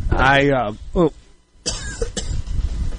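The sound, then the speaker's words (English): Coughing and throat clearing as pollen catches in someone's throat: a voiced, rasping clear of the throat, a short second burst, a brief pause, then a stretch of rough, breathy coughing. “Sorry, pollen. There we go. Tis the season. It just caught right there in my throat.”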